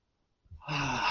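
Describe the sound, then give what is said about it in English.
A person draws a deep breath in through the nose during a guided breathing exercise: after a brief silence, a soft airy rush begins and swells into a steady, breathy hiss that carries on to the end. “inhale through the nose. Inhale through the nose.”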